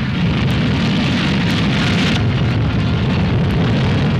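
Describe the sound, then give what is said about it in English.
Roar of a captured German V-2 rocket lifting off at White Sands, New Mexico: a steady, loud, dense rushing noise with a low rumble underneath, continuous throughout with no voices. “At White Sands, New Mexico, the huge missile takes off.”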